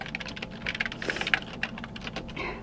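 Typing on a computer keyboard as a girl helps her grandmother answer fan email: many quick, irregular keystrokes clatter steadily and fairly faintly, with no voices.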